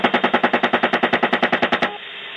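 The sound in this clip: Gunfire is aimed at a disabled van in one long, rapid burst of evenly spaced, loud, punchy shots, like a machine gun. It stops abruptly, leaving a faint lingering hum.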